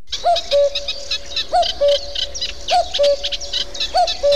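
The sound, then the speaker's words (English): A cuckoo gives its two-note call four times at an even, unhurried rhythm, clear and fairly loud, while other birds chirp and twitter at a higher pitch behind it. “But before I bring Tom back in, let's have a listen to the cuckoo.”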